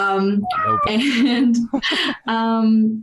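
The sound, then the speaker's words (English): A pet cat meows loudly several times in a row, drawn-out, tonal cries with wavering pitch separated by short gaps. “Sorry, that's my cat.”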